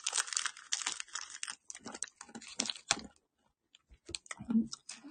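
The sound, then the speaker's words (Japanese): Someone chewing nuts, producing irregular crunchy bursts and crackles close up, with a brief pause before the crunching resumes. “ナッツもね、もうちょっと食べて。”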